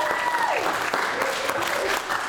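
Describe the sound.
Audience applause welcoming a guest: a dense, loud, steady wash of many hands clapping that runs unbroken from start to finish.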